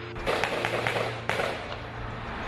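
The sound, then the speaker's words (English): Gunshots ring out during a shooting at the Borderline Bar in Thousand Oaks, a few sharp cracks cutting through a dense, loud wash of noise. “There are multiple shots being fired in the back northwest area.”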